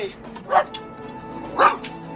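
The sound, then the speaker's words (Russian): A terrier and a caged St. Bernard puppy face each other and bark: two sharp, loud barks about a second apart, with a smaller yip right after the second. “Выпрыгнув из клетки, терьер подходит к клетке со щенком сенбернара. Стоя друг напротив друга, они лают.”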